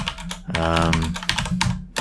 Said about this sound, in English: I typed in that exact thing in YouTube